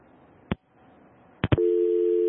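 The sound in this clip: Telephone line tone after a radio call-in caller's line dropped: three sharp clicks, two close together, then a steady low electronic tone that holds to the end.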